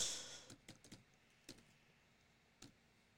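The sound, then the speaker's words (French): Typing on a computer keyboard: a few faint, irregular key clicks, with a small cluster early on and sparse single taps after, in a quiet background. “Ah ben, je vais taper coronavirus.”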